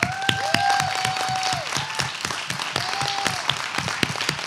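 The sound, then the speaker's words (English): Audience applause: many hands clapping steadily and loudly throughout, with a few whoops and cheers rising over the clapping. “I feel like we're all supposed to applaud you as in heaven applauds you.”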